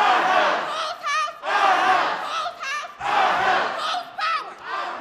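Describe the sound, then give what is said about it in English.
Protesters shout in the Michigan state capitol rotunda and galleries in December 2018. A loud crowd roars in long surging waves of massed yelling, with a few brief dips between the bursts. “That was from December of 2018 at the state capitol, protesters flooding the rotunda and the galleries of the state capitol”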